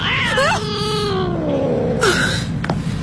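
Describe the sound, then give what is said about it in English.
A cat meows: a long, wavering call that slides down in pitch, followed by a shorter, higher cry, both loud and clear with no talking. “It's just a cat. Nothing to worry about.”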